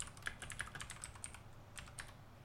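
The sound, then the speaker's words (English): Soft typing on a computer keyboard during an online search, with quick irregular keystrokes clattering faintly, some a little sharper than others, and no talk. “No, that's not what I typed, Google.”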